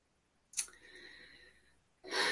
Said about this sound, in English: Deep don't know. breath, very deep breath.